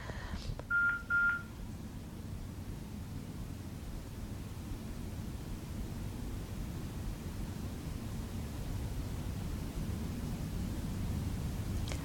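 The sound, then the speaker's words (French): Call-waiting tone on a telephone line, two brief mid-pitched electronic beeps close together, followed by a long stretch of steady, faint line hiss. “il y a mon téléphone, je ne sais pas, vous entendez ce bruit? Oui, c'est peut-être à mon avis un appel, deuxième appel”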